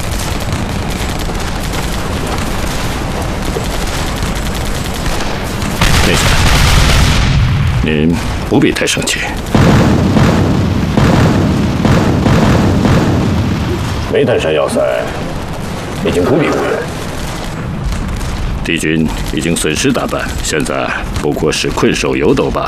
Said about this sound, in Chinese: 命令他们再次进攻，加强炮击，把毒气弹全都打过去。 命令炮兵阵地追加一个战术单元，立即发射。